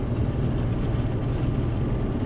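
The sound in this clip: A car drives along a desolate desert road on the way back to Los Angeles, making a steady, low rumble of engine and tyre noise that stays constant throughout without talk.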